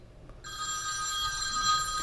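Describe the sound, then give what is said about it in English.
A mobile phone ringing: after a brief quiet moment, a bright, high electronic ringtone starts and holds steadily at moderate loudness. “You really don't know how to turn your phone off? Here's the thing. That was my phone, sorry.”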